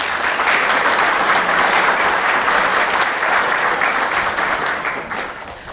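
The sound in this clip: An audience applauds to welcome two guests at a talk, with continuous, dense clapping at a steady loudness that tapers off toward the end.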